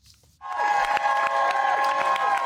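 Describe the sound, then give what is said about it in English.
Resounding applause and cheering from a crowd greet Vice President Harris as she arrives at her campaign office in Wilmington, Delaware. After a quiet moment the sound breaks in abruptly and stays loud and dense, with raised shouts over the clapping. “Greeted by a resounding applause, Vice President Harris arrived at her campaign office in Wilmington, Delaware this afternoon, ahead of her first campaign event as a presidential candidate.”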